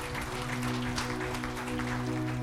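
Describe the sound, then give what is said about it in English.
A church audience gives a hand clap of praise, dense applause spread over a sustained musical tone that continues underneath. “Let's give the Lord a hand clap of praise. Can we do that?”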